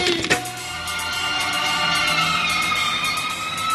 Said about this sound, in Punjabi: ਓਏ ਛੇਤੀ ਛੇਤੀ ਦੱਸੋ ਕਿੱਥੇ ਅੱਗ ਲੱਗ ਗਈ ਫਾਇਰ ਬ੍ਰਿਗੇਡ ਵਾਲੀ ਗੱਡੀ ਵੱਜ ਗਈ